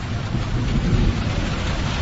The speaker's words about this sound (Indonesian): Dan tiba-tiba, hujan mulai turun